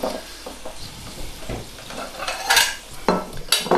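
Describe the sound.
Plates and dishes are taken out and set down in a kitchen during preparation of a roasted beet and carrot dish with honey and vinegar, giving a few sharp clinks and clatters that stand out over a low background hiss.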